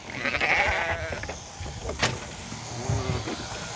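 Sheep bleating while being shorn, the strained bleats rising out of a continuous mechanical whir, with a couple of distinct cries standing out over scuffling and handling noise.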